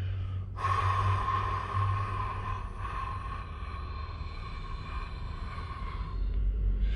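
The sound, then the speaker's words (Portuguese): A slow exhale during a paced breathing exercise, following a brief held-breath pause, streams out as a steady breathy rush lasting roughly five seconds over a constant low hum. “puxou o ar por 4 segundos, você segura esse ar por 2 segundos. Então você segura 1, 2 e depois você solta por 5 segundos.”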